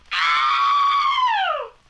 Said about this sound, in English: She screams pretty good.